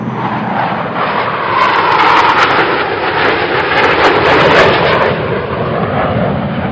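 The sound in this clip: A loud, steady roar of an aircraft engine as the plane flies low over the towers of La Défense in Paris, swelling slightly in the middle and then holding a constant drone.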